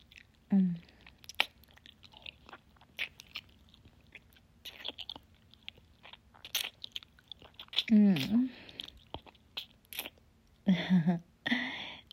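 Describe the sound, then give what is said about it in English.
Wet, slurpy sucking of a finger comes in several short smacking bursts with soft mouth noises, alongside low spoken voice. “Do you like the sound of that, honey? And the slurpy sound of me sucking my finger like this?”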